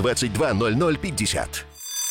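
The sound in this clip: A bell ringing, a short steady ring that emerges as a voice trails off and then continues alone for a moment at the end.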